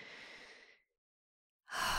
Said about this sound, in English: you can close your eyes, place your hand over your heart, and just breathe deeply.